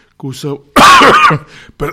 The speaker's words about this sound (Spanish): Perdón por la tos